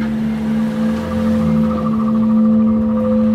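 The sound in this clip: Steady engine hum of a car driving through neighborhood city streets where heavily armed soldiers are posted, a loud constant low drone with sustained tones and no talk.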